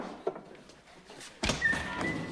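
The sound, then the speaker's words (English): A man unbolting the door to a back room: faint taps and fumbling, then a louder thunk of the bolt with a brief rattle after it, all fairly quiet. “At the entrance to a back room, a man unbolts the door.”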